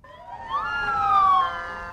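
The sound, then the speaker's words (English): Ambulance siren in a funeral convoy in Baghdad, a loud harmonic wail that sweeps upward and then glides slowly back down, heard alone over about two seconds. “In Baghdad today, a fleet of ambulances carry those killed by the U.S.”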